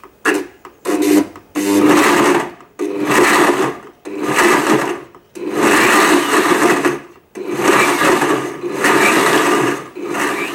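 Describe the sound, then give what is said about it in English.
A blender pulses red chilies with white vinegar into a puree. A few quick short bursts give way to several longer whirring runs, each cutting off sharply into a brief pause. The motor noise is loud, harsh and gritty. “Put on the lid and you want to mix this and puree it and blend it until it's pretty smooth. So the best option for this is probably to pulse.”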